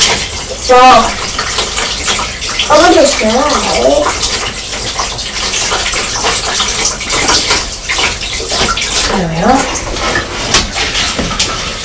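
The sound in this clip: Tap water runs while a child washes hands, a steady splashing hiss lasting throughout as voices talk over it.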